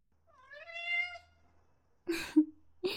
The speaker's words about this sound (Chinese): 之前不是一直说要养猫吗？这也算是礼物之一吧。你看。这只大缅因呢，叫 Tiger